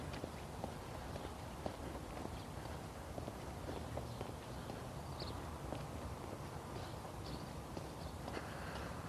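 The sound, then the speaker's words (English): Footsteps of a person walking, a steady run of many light, even steps keeping a regular rhythm from start to finish, with no voices over them. “What am I doing? I'm walking.”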